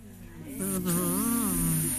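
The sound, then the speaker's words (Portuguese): A person imitating a buzzing bee with their voice, a sustained nasal drone with a slightly wavering pitch that grows louder after a moment and holds steady over background hiss. “Alguém sabe zumbir como uma abelha?”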